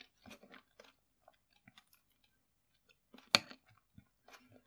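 Soft chewing of moist, tender bacon, not crisp: a few faint, irregular wet bites and mouth clicks with one sharper, louder crunch partway through, otherwise quiet.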